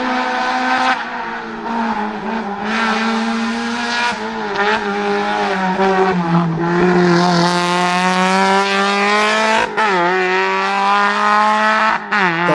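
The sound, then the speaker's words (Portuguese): Engine of an NSU Prince 1200 TT, a German car with a rear-mounted, air-cooled 1.2-litre four-cylinder. It makes a loud, continuous, strongly tonal drone whose pitch wavers up and down through several rev changes, with no voices. “esse não é um Porsche e nem é um Fusca, né? Nem Kombi. Nem Kombi, nem nenhum Volkswagen. É um NSU Prince 1200 TT.”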